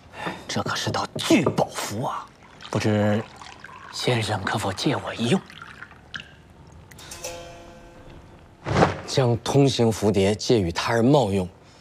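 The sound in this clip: Tea pouring into a cup: a short, thin trickle in a pause between stretches of calm talk.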